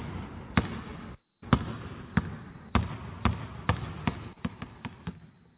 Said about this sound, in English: Bounce the ball.